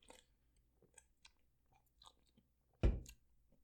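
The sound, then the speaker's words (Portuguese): Quiet sips and small mouth clicks as someone takes a drink, followed by one louder, sharp knock-like burst near the end. “Vou beber aqui, só um minuto.”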